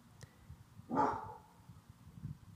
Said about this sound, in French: Ah zut, le chien mince. Je suis désolée.